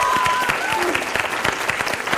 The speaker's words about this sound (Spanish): Un aplauso para ellos.